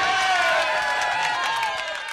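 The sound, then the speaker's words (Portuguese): Audience applause and cheering: clapping mixed with whoops and excited voices sliding up and down in pitch, loud throughout and easing slightly toward the end. “Não, mais palmas. Uma multidão de aplausos pra ela!”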